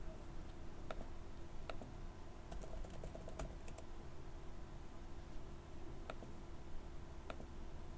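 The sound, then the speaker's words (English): Typing on a computer keyboard: sparse, irregular keystroke clicks, some in quick pairs, over a steady low hum. “So I just need to type a little bit so that reruns the analysis.”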